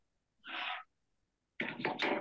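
Coughing in a room during a physics lecture: a single rough cough, then after a pause a quick cluster of a few more coughs, each a breathy, fairly faint burst against near silence.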